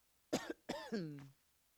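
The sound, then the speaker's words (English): Someone coughs in a room: a short, harsh burst followed by a longer, throaty cough with a voiced rasp, alone against quiet. “the sound of me coughing.”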